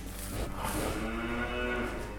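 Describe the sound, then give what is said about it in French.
Dairy cows, some close to calving, moo in a barn with low, drawn-out calls that rise out of a steady background of livestock noise. “Les vaches laitières sont sur cette partie-là. Là, c'est des vaches qui sont en préparation vélage.”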